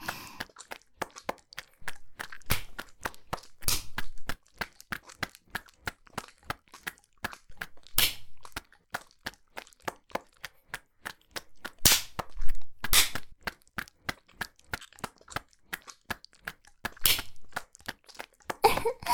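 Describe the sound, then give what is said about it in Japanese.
A hand slapping buttocks in a spanking, many sharp smacks landing one after another in an irregular rhythm over a faint background. “お尻叩くともっと締まりますね”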